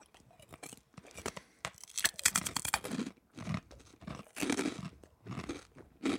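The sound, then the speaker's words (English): Crunching and chewing of a cassava snack during a blind taste test: many crisp, irregular bites and chews arriving in uneven bursts with brief gaps. “Blind taste test. Pop one in your mouth and tell me what you think it is.”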